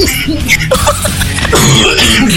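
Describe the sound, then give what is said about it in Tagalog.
A person on a radio show coughs and clears the throat, rough, loud, voiced bursts that run on through the whole stretch with barely a pause. “Ayan na nga! Nauubo na nga!”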